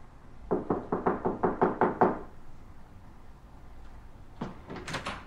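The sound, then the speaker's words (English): Knocking on a bedroom door: a quick, even run of about eight firm knocks, then a pause and a few softer knocks close together. No voices are heard. “He turns to Zoe's room and knocks.”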